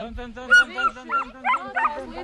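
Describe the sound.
A collie whining to signal while herding sheep: several short, high, thin whines and yips in uneven bursts, heard together with a person talking.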